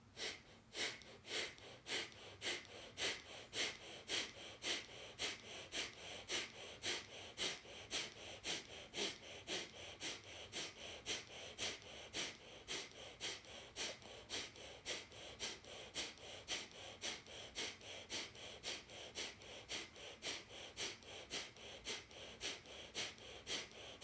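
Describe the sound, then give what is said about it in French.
Kapalabhati yoga breathing: many forceful, sharp exhalation puffs in a steady, even rhythm, roughly one and a half per second, repeating through the whole stretch with no talk. “Kapalabhati.”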